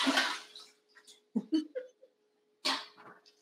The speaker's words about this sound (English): then i'm going to drain these carrots